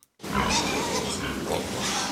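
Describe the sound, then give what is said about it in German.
Pigs and piglets grunting and squealing in a pig barn, where sows lie with their piglets in separate pens; a dense, loud, continuous chorus of animal noise fills the whole clip without pause. “Im blauen Arbeitsanzug und Gummistiefeln geht Schweinehalter Johannes Schaal durch den Stall. In den einzelnen Abteilungen liegen die Ferkel bei ihren Müttern.”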